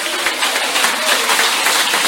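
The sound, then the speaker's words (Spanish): A church audience claps in praise, a dense, continuous patter of hands at a fairly steady, moderately loud level throughout. “Porque levantar la voz a Dios y aplaudir, porque las palmas son para el Señor.”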